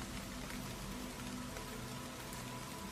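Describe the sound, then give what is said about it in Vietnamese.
Wind and rain blowing into a house through a burst-open door, a dense, unbroken hiss of rain with no distinct drops, steady in loudness throughout. “Tiếng gió mưa vùn vụt tạt vào trong nhà, làm hai ngọn đèn cầy tắt lịm.”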